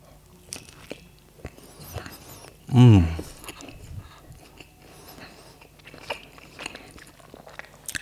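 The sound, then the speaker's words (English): Eating sounds from a food mukbang: one loud, crunchy bite stands out near the middle, surrounded by fainter scattered chewing and mouth clicks. “I feel like I could hear myself chewing, like the echo.”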